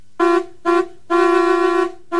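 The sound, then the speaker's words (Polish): An old-style, non-electric car horn honks four times, the third blast much longer and the last cut off, each a steady, bright, nasal tone sounded on its own. “Chciałbym tu zanegować, czy ta wyższość klaksonów elektrycznych nad starymi trąbkami jest uzasadniona. Proszę posłuchać, jaką ja mam trąbkę.”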